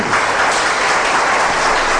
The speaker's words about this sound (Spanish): ¿Cuántos le pueden dar un aplauso al Señor?